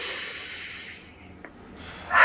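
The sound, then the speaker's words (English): A deep breath during a calm guided relaxation exercise: a long, breathy exhale that slowly fades to near silence, then a sharper inhale rising quickly at the end. “you might choose to take a cleansing type breath, a deep breath in and out.”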